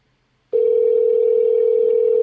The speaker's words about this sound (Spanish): No creo que el hombre responda si no lo ha cogido hasta el momento. A ver si nos devuelve la llamada, por lo menos.